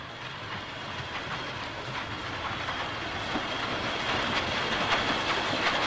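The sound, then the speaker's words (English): A green GWR locomotive draws toward a station platform with a steady rumbling roar, rail clatter and a bright hiss, the whole sound growing slightly louder as it approaches. “The green GWR locomotive approaches the opposite platform.”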